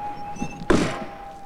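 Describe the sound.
A semi truck's cab door swung shut with one solid, dull thunk over a faint steady hum.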